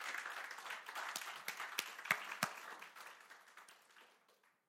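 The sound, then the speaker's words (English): A round of applause for veterans at a church service: fairly faint clapping swells, holds with a few sharper claps standing out, then fades away. “Give them a round of applause. Give them a clap.”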